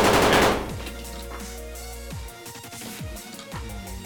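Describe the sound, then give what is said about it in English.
Full-auto fire from a heavy submachine gun in a tabletop role-playing game: a loud, dense burst of rapid shots at the start, then quieter, scattered shot-like hits. “Well, I've got the heavy SMG. Okay. I'm going to go full auto on him again.”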